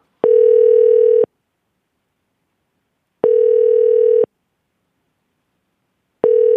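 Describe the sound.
Ringback tone of an outgoing phone call ringing out to a freight truck driver: three steady, mid-pitched one-second beeps evenly spaced about three seconds apart, the last cut off, with silence between.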